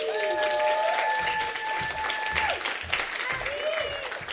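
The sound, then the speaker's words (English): An audience at an in-person book reading applauds to welcome the reader with steady, warm clapping, and a few voices call out and cheer over it before the clapping thins toward the end. “So please give Abby a nice, warm welcome.”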